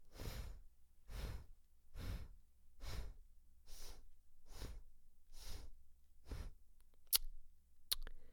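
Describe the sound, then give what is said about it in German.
Eight short, forceful breaths pushed out through the right nostril during a breathing exercise. They come evenly about once a second and stay quiet and breathy, alone without talk. “Ausatmen rechts.”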